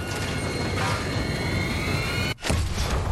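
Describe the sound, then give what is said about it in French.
An explosion in the video game Dead Island 2: a loud, dense roaring blast sustains throughout, drops out abruptly for a split second, then surges back just as strong. “C'est exactement comme dans Lost. Ça aspire un truc et ça explose.”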